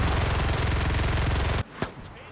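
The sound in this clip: Gunfire in the video game Battlefield, a rapid burst of automatic fire that rattles loudly for over a second and cuts off abruptly, followed by a single sharp shot.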